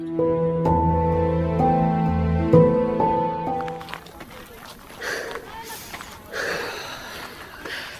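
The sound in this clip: Hurried footsteps of people walking fast so as not to miss their vehicle. A short melodic music passage gives way to quick, scuffing steps mixed with breathy sounds.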